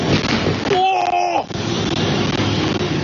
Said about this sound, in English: the subject soon changes as US airstrikes explode nearby.